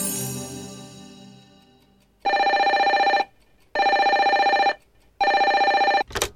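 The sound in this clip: A telephone rings three times, loud and evenly spaced, each electronic ring lasting about a second with a buzzing warble. A fading tone comes before the rings, and a short sharp burst follows at the end.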